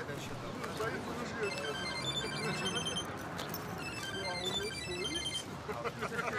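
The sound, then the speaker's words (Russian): A phone ringtone plays in repeating high tonal phrases over a steady, noisy background as a woman sits on a street bench during a film-set scene. “ты еще трубку не берешь? Это ты мне только что звонил?”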